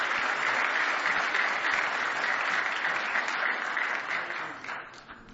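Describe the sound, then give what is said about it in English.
Audience applause at a church gospel service, a dense, continuous wash of hand clapping that holds steady and loud, then thins and fades toward the end. “Give him one more big hand clap as he comes to sing for you tonight.”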